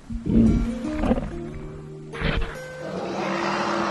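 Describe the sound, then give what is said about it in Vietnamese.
A white elephant roars in a war setting, giving a few deep, harmonic, bellowing calls with a noisy, harsh burst near the middle, with no talk. “Không sợ hãi. Quả Tượng gầm lên kiêu hãnh.”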